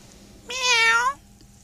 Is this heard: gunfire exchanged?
no